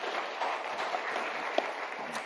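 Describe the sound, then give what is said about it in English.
A church audience applauds to congratulate a member, a steady, fairly soft patter of many hands clapping with a few sharper claps standing out. “So a big congratulations to Nick as well. Let's give him a hand again.”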